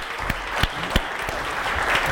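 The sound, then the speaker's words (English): An audience applauds after a round of thanks at a community gathering, a steady wash of clapping with a few sharper, louder claps standing out early on. “Let's give you a round of applause.”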